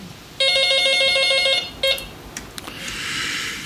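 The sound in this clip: A telephone rings for a caller on the line, with one bright, trilling electronic ring of about a second followed by a brief second ring that is cut short, then a few clicks and a hiss of open line.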